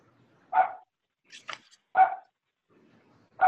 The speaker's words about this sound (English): I hear someone's dog.